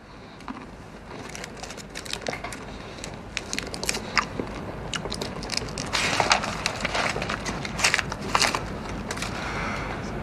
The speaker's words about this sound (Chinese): 你巧克力特好吃，甜而不腻，尝尝， 尝一个。